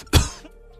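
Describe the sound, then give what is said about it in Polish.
A single sharp, loud cough from a man, followed by a faint breathy trail and quiet. “Sorry, bo się skaszlałem.”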